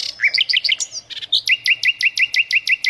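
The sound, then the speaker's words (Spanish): Bright, high bird song from a digital collection of birdsong opens with a varied flurry of quick chirps and whistles, then settles into a rapid run of repeated identical notes. It is loud and clear, with no voices. “es un libro digital de canto de pájaros”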